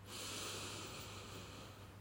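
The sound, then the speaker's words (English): A slow nasal inhale during a guided breathing meditation, a soft, steady, breathy hiss of air drawn through the nose that holds for about two seconds without break, alone and with no talking. “Now start to inhale through the nose”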